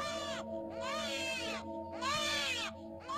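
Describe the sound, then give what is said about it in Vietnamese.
A baby wails and cries in piercing, strained bursts, about four cries with brief gasping gaps, each one swelling and bending in pitch above a steady low drone. “Bỗng nhiên nó gào khóc lên, tiếng khóc như xé lụa.”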